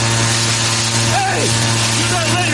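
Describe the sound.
A leaf blower runs with a loud, steady motor drone and a strong rushing of air. Raised voices shout over the engine noise.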